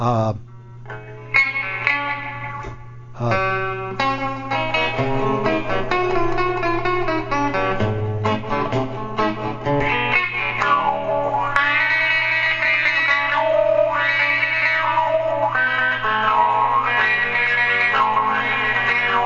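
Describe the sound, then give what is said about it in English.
Electric guitar played through a fuzz tone and wah pedal, treated to sound like overseas shortwave radio while playing a news theme: distorted, sweeping notes with echo over a steady low hum, continuing without pause. “sort of make it sound like overseas shortwave radio, and nobody could figure out. And I use a fuzz tone with it, fuzz tone and the wah pedal”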